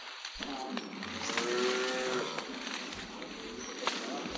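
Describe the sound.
A young bull penned on a farm moos in a drawn-out, low, steady call over constant background noise.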